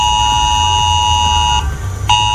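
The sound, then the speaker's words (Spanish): A mobile phone emergency alert tone, received by residents after an articulated lorry overturned off a motorway: a loud, steady, buzzing electronic tone with a low rumble beneath, cutting out briefly near the end before sounding again. “Es el aviso que han recibido en sus teléfonos móviles tras el vuelco de un camión articulado.”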